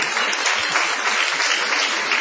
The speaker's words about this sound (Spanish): Y eso aplauden, miren lo que es esto, ¿no?